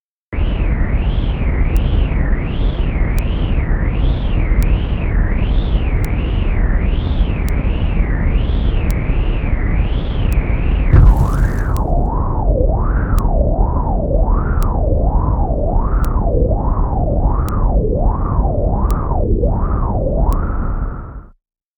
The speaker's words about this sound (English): Here is the data sonification of the 2015 Axial Seamount Eruption using 2 weeks of bottom pressure data.